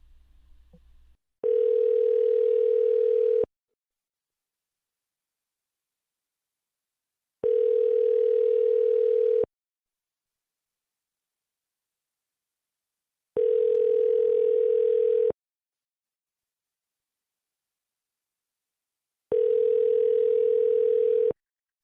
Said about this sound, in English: Let's call this gentleman. Final call of the night.